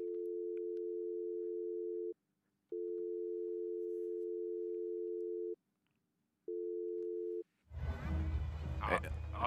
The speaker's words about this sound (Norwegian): Vi skal prøve å ringe han opp fra miksebordet her, hvis vi, hvis vi da slår nummeret.